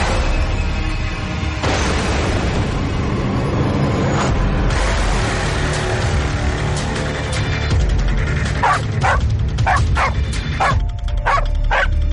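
A dog barks loudly from downstairs at night in a long series of barks, ending in a quick run of sharp, rapid yips.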